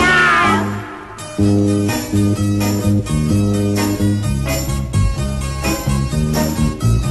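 A cat meow opens a song about a black cat that dances the tango. One drawn-out meow sounds alone before a loud band comes in with a bouncy rhythm.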